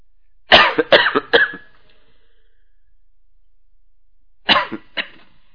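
A person coughs and clears the throat: a quick run of harsh, raspy coughs, then silence, then a couple more short coughs. No one speaks.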